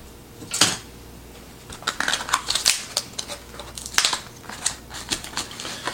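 A budget product package, shipped with batteries, is torn open. One sharp crackle comes first, then many irregular crinkles, snaps and rustles of packaging, moderately loud and with no voices.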